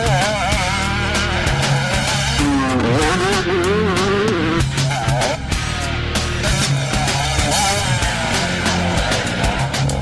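Motocross dirt bike riding on a friend's private track, the engine a loud continuous whine with wavering pitch as it revs up and down for the full length, with no talk.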